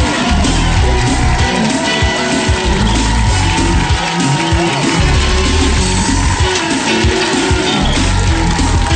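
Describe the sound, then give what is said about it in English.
Live studio audience at Nickelodeon Studios, Universal Studios Orlando, Florida, cheering with whoops and yells; a dense, loud wall of crowd noise holds steady throughout, with shouts popping out above it. “A live studio audience at Nickelodeon Studios at Universal Studios Orlando, Florida.”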